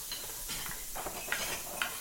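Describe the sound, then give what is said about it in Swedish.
Lamb fillet with its fat cap frying in a pan gives a steady, bright sizzling hiss, broken by a couple of sharp ticks. “Sen har vi lammytterfilé som är mör, detalj som går väldigt snabbt att steka.”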